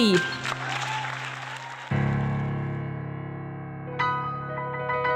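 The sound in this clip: Audience applause greets the MC of an improvised musical comedy show, a dense clapping wash that thins after about two seconds while sustained musical chords ring on beneath it.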